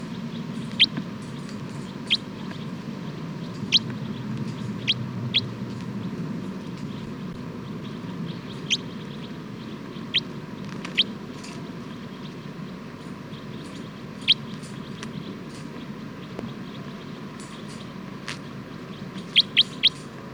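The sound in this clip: Short, sharp bird calls sound one at a time as a bird responds, many brief chirps spaced irregularly, some close together near the end, over a faint, steady background hum.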